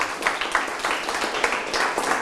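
Classroom applause as students clap for a correct answer: a steady patter of many quick claps running throughout at an even, moderate level.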